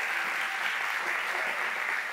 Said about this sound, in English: Can you give it up? Can you put your hands together?